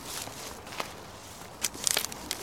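Footsteps walking downhill outdoors: a few soft, irregular steps at low level, separated by quiet pauses, with no voices.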